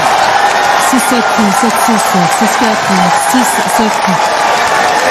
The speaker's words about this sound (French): La balle de match et l'ovation donc pour Frances Tiafoe qui a voulu célébrer sa victoire avec le public qui l'a poussé jusqu'au bout.